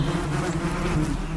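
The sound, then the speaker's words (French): Buzzing of an Asian hornet (Vespa velutina) among honeybees: a steady, dense, low-pitched drone of wingbeats with a rich harmonic hum, continuous and unbroken throughout. “Voilà, c'est le son du frelon asiatique au milieu des abeilles.”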